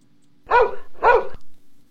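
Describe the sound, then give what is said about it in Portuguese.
A farm herding dog barks twice, loud and sharp, with a short gap between the two barks and nothing else around them. “Mas antes do Galo Chico, olha o cachorro campeiro aqui, ó, meus filhos, ó. Rapaz, esse cachorro é uma beleza.”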